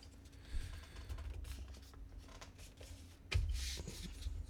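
Paper is folded by hand into a shape, making soft, quiet rustling and creasing with a couple of sharper crinkles standing out.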